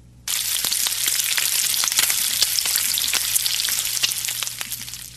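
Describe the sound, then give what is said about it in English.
Bacon frying in a pan gives a loud, steady hiss thick with crackles and sharp pops. It starts abruptly and runs on alone, with no talk. “It's frying pan sizzle.”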